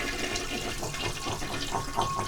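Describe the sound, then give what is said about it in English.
A toilet flushes with a steady rushing gush of water that runs continuously and fairly quietly for the whole clip. “So we flush the toilet.”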